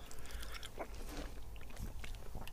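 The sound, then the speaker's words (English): Soft, irregular chewing and biting of a raspberry with its chocolate coating peeled off, faint moist squelches and light crunches running steadily with no talk. “I'm gonna peel the chocolate off, and just eat the raspberry to see if I can taste the raspberry on its own.”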